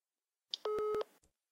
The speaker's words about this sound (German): Ich rufe dich von einem falschen Handy an.